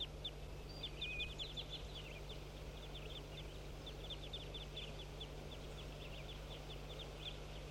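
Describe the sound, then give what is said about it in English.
A flock of crossbills calls in flight, giving many short, sharp, high chip notes in irregular runs, faint over a steady low hum and soft background noise. “Here comes the crossbill in flight. Stop. Start recording the flock.”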